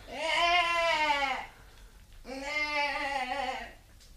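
A young goat kid gives two drawn-out bleats, each lasting about a second and a half and separated by a short pause. They sound nasal and wavering, with a slight downward slide in pitch.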